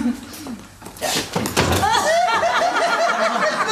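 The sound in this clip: A door opens to let in an arriving visitor, with a few short clunks and rattles of the latch and handle in the middle, followed by voices talking.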